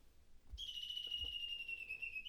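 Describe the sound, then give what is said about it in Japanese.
A bird call: one long, high, thin whistled note held for nearly two seconds, steady with a slight drop in pitch, fairly faint, with a couple of soft low thumps beneath. “これが1番の鳥の鳴き声です。”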